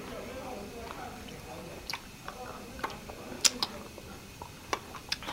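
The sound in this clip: Chewing on a stale candy roll gives faint, scattered crunchy clicks and ticks, a few sharper snaps standing out over a low background hum.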